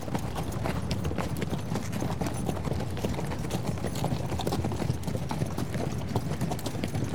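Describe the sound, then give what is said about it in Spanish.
Horse hooves clip-clop continuously as a horse is ridden, many quick, even hoofbeats in a steady rhythm, with no talk over them. “Por eso nos vamos de vuelta a caballo a mover la antena que está a unos cuantos kilómetros de aquí.”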